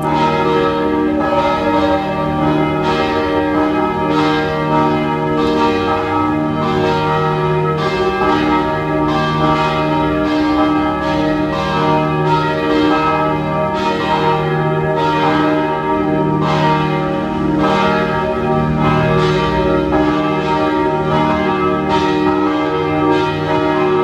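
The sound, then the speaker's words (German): Parish church bells in Vienna's 14th district ringing at noon, many overlapping strikes forming a loud, steady peal with rich ringing overtones that continues unbroken throughout. “Es ist 12 Uhr. Sie hören die Glocken der Pfarrkirche Penzing im 14. Wiener Gemeindebezirk.”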